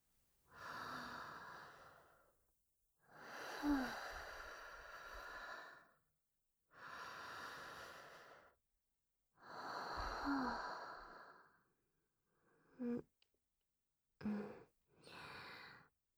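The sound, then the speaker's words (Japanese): Slow breathing in and out by a seated person: several long, airy breaths with quiet pauses between them, then a few shorter, quicker breaths near the end. There is no talking. “また息吸って、吐いて。”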